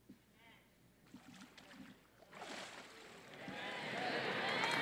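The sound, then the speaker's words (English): Water splashing during a baptism by immersion, as a swelling rush of splashy noise builds steadily after some brief talk. “it's my privilege to baptize you in the name of the Father who loves you so much, in the name of Jesus who gave himself for you, in the name of the Holy Spirit who promises to be your comforter and your God.”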